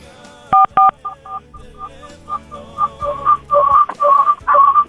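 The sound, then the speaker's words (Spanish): Touch-tone dialing of a telephone number: two sharp dual-tone beeps open, followed by a quick run of shorter tones that grow louder toward the end. “vamos a volver a marcar”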